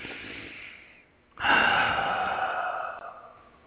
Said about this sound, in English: So let's shut our eyes. Take a deep breath.